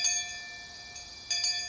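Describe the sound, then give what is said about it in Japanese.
A kamishibai street storyteller's hand bell gives bright, high, tinkling rings: one ring fades away, then a fresh burst of ringing comes near the end. The bell is fairly faint and heard alone. “あ、紙芝居のベルだ。”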